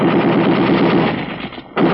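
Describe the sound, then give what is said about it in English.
Dense, continuous machine-gun fire rattles loudly in a sustained burst, dips briefly into a short lull, then resumes at full force. “During a slight lull in the firing”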